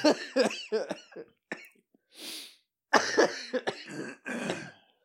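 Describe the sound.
A person with a throat that won't clear coughs and clears their throat in a series of harsh, rasping bursts. A short breathy exhale fills a pause midway.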